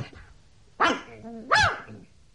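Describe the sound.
A dog barks twice while tugging on its leash in town, two sharp, bright barks about a second apart with a quiet gap between them. No tugging noise is evident.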